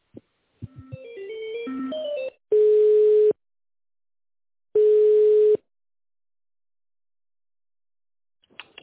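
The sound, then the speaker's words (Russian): A telephone ringback tone sounds while a call connects: two steady, mid-pitched tones, each under a second and separated by silence, preceded by a short run of shifting electronic beeps. “Сейчас соединяю.”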